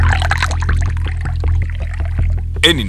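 Water is poured with a steady, rhythmic gurgle over a low constant hum. A brighter burst sounds near the end.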